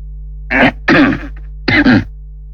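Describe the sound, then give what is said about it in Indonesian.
Loud, harsh coughing and throat clearing in a few bursts, the middle one longest, separated by short silences. “Nyaram batuk bebas. Di dunia mah tidak ada larangan batuk.”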